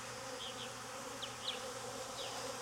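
Agitated honeybees buzz at the entrance of a hive holding queen cells: a faint, steady hum with a few brief higher whines from individual bees.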